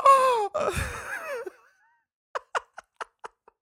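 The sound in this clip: A voice imitates a sharp gasp with a strained vocal intake that slides down in pitch. After a short pause come six brief breathy bursts.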